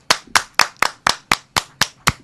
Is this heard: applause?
yes